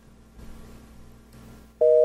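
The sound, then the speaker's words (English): A telephone end-of-call tone like an old busy signal: a loud, steady two-pitch electronic tone cuts in abruptly near the end, after a faint low hum. “The old busy signal, for those who don't know what that sound is. That's a bit... Well, it wasn't a busy signal in this case. It was end of call, I guess.”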